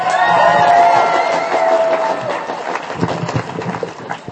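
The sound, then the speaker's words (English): Applause and cheering from an audience at a live stage show greet a guest walking on, a loud, dense roar with a bright tonal edge early on that gradually thins into scattered claps and shouts. “Ladies and gentlemen, give it up for Georgina Beyer.”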